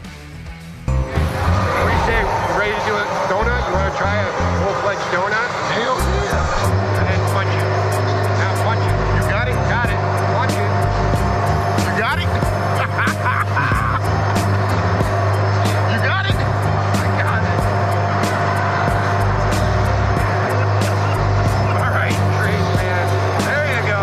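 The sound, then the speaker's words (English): A Zamboni ice resurfacer driven around a Seattle Kraken hockey rink, a steady engine drone that settles into a low hum after several seconds, with mechanical clatter and sharp ticks, and voices throughout. “What better way for the beast mode to make his presence felt with his new team than to take the Zamboni out for a spin?”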